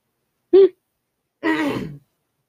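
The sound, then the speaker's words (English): Throat clearing from phlegm: a short voiced grunt, then after a pause a longer, rasping clear that trails off, moderately loud with no talk. “My phlegm is really bugging me.”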